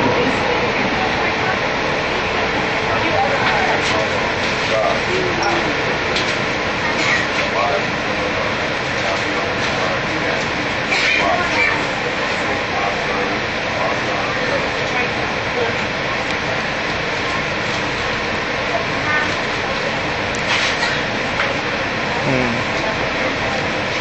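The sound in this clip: An electric light rail train running, giving a steady mechanical hum and rumble that lasts throughout, with a man talking over it.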